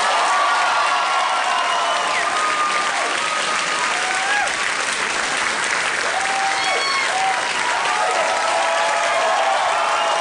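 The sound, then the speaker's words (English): Excited studio audience at a talk show applauding and cheering a guest's entrance: loud, sustained clapping with scattered whoops and shouts rising above it throughout. “Wow, wow, wow. Relax. Very excited audience.”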